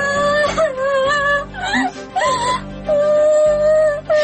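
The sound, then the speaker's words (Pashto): A child cries in a Pashto radio drama, a wavering high-pitched wail in drawn-out, sobbing stretches broken by short catches of breath. “ولې ژاړي ګورې؟ څه خبره ده؟”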